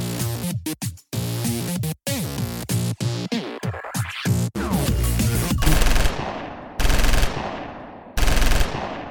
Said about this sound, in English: Oh, these babies can shoot! How about the recoil? Not bad. Man, look at the holes in those targets.